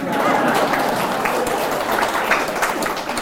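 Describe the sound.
An audience applauding: loud, continuous clapping from many people, a bright, even patter with no pauses.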